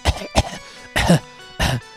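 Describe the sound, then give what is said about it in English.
Four coughs from a character in an audio adventure drama: two short, sharp bursts followed by two longer, heavier ones, each separated by quiet, with no talking. “And you hear like a sort of a coughing.”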